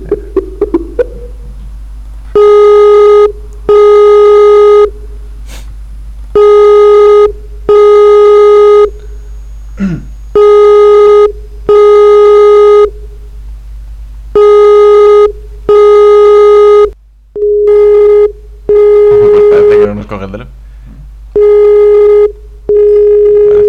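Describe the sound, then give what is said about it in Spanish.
Telephone call tones on an outgoing call that nobody answers: loud, steady electronic beeps repeating many times in regular bursts separated by short silent gaps. “A llamarla, a ver si nos coge el teléfono.”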